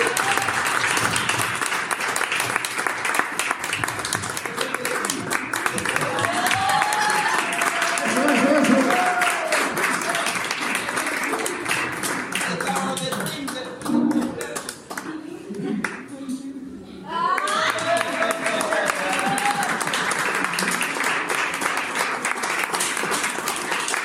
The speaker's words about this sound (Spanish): Un aplauso muy fuerte.